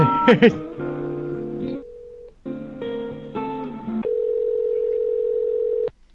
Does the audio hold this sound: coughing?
no